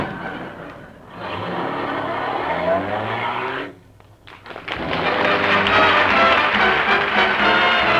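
A taxi car pulls away and drives off with loud, rough engine and road noise. The noise dips briefly partway through, then returns stronger and holds steady to the end.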